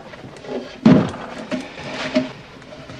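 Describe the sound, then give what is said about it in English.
A simple wooden spindleback chair is set down on the floor of a small living room. It gives one solid thud, followed by two fainter knocks, with no talking. “picks up a simple wooden spindleback chair. He puts it down in the middle of the little living room”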